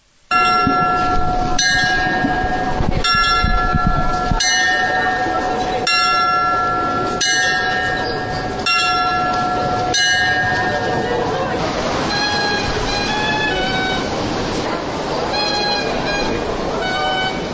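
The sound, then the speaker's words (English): The Zytglogge clock tower in Bern, Switzerland rings out eight loud, evenly spaced bell strikes, each leaving long, ringing overtones. Lighter, quicker chiming tones follow. “And that sound we heard is very special. And it comes to you from the Swiss capital city, Bern. And I'm standing at the famous Zieglocke, or clock tower in Bern, which is one of the landmarks of the Swiss capital.”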